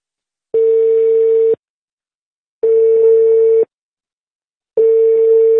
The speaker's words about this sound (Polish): Po sygnale nagraj wiadomość.